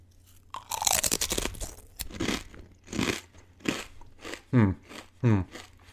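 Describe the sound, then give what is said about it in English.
Crisp crunching as a single jalapeno-flavoured potato chip is bitten and chewed: first a dense, crackly burst of crunching, then a series of separate sharp crunches, with no talking. “I've never had this variety before. So I will just have a single chip and we'll see where it takes us.”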